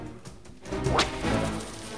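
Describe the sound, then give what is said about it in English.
A whip cracks once, sharp and bright, cutting through a low, rushing background. “The three men surround Beck and crack their whips menacingly.”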